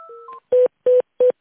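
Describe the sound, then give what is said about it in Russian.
Telephone tones sound as a call is transferred. A short stepped two-tone signal is followed by three evenly spaced, identical loud beeps on an otherwise silent line. “Сейчас, минуточку, переключу вас.”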